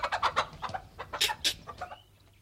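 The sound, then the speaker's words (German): A hen clucks in a quick, uneven run of about a dozen short, sharp notes, some higher and louder. The notes grow softer and trail off near the end, with no other sound. “Was ist das? Verdammte Henne.”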